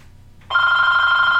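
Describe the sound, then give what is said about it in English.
A telephone bell starts ringing abruptly after a short quiet moment and holds as one loud, sustained, steady tone. “Just gonna let that roll. Y'all just ignore that. Just ignore that. That's the phone. Ignore that.”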